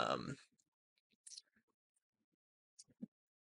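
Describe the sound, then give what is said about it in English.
Votes are typed on a computer keyboard, heard as a few sparse, light clicks spread over three seconds after a brief voice at the very start. “All right, let me type in my actual votes.”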